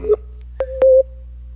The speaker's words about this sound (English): I heard beeping that time.